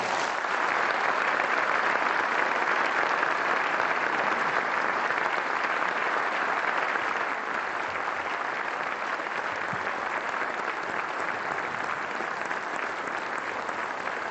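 Audience applause welcomes moderator Leon Panetta at a lecture, a dense, steady wash of clapping from a large crowd that holds at an even level throughout without fading.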